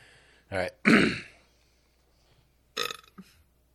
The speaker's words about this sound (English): I'd have to blow it first and then burp into it.